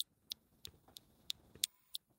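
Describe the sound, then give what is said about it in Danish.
A motion sensor device gives off short, sharp, high-pitched clicks and chirping beeps at a fairly steady pace of about three per second, quiet and without talk. “Ja, det er jo sådan nogle kliklyd, og så sådan et godt pivelyd, jeg kan lige se, fordi den er sådan en bevægelsessensor.”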